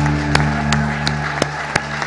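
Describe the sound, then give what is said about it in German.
Guests at a gathering receive applause. Scattered, distinct hand claps stand out as sharp separate hits over a sustained tonal hum, and the clapping stays fairly thin rather than a dense roar. “Ganz einen kräftigen Applaus für unsere Gäste.”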